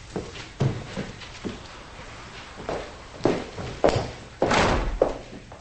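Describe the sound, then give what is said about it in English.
Footsteps of a person climbing the stairs. A series of dull, uneven thuds, some heavier than others, falls at irregular intervals with no talk. “She goes upstairs.”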